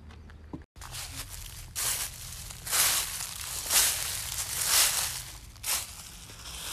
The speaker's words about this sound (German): Und genau, geht Schritt für Schritt. Und gleich sind wir im Wald.